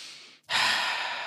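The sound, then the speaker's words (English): A single deep breath drawn in during a guided hand-on-heart check-in, heard as a long, airy, steady inhalation that swells up after a short quiet gap and holds for nearly a second. “take a deep breath in.”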